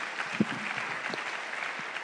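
Steady audience applause for a panel at the end of a session, a dense, even patter of many hands at moderate loudness with no talk over it.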